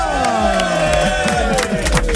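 Studio audience cheering and applauding for a visiting sports team of French champions, a loud, continuous wash of crowd noise that holds steady throughout.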